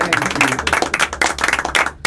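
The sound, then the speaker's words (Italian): A short burst of applause: sharp, closely spaced hand claps at a fairly loud, fluttering level that drop out briefly and then return for a final clap. “Applausi!”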